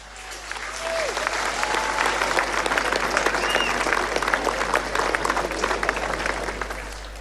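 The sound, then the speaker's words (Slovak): Big applause from a crowd at a pro-life march: dense, steady clapping that swells in and holds for several seconds before easing off, with a few faint whistles. “Veľký potlesk.”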